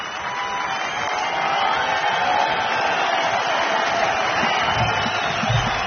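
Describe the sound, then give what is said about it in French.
An audience at the 1984 Antibes Juan-les-Pins jazz festival calls for an encore with sustained applause and cheering, a steady, dense wash of clapping heard in muffled, band-limited sound. “Le public de la Côte d'Azur en redemande, comme vous pouvez l'entendre. Et il va réussir à obtenir un troisième rappel”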